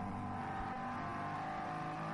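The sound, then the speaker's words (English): Engine roar from a front-engined Ford race car with a 5.4-litre Coyote-derived V8, pushed hard while racing against BMWs. A dense, loud, continuous drone holds steady throughout with no break. “And it's BMW versus Ford. Big front-engined cars. Marvellous stuff. The V8 being tortured within an inch of their life.”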